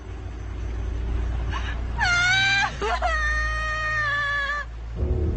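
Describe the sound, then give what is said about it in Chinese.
A girl crying in distress, frightened and stuck standing on a buried landmine: two long, high, wavering wails with a short break between, loud over a low background rumble. “你别哭，别哭。你别害怕，你别哭啊！”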